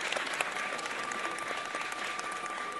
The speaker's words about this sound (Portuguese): Aplaudir, Gerão, aplaudir, compositório.